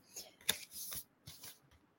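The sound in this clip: A deck of oracle cards being shuffled by hand gives faint papery flicks and soft slides in a few quick bursts, with one sharper snap, and no talk.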